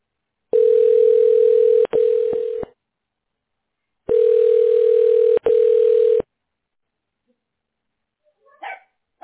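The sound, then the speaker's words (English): A telephone ringback tone plays while a call to a pressure washing business is connected: two steady, buzzy rings of about two seconds each with a pause between, followed by a few faint brief noises. “Please wait one moment while we connect your call.”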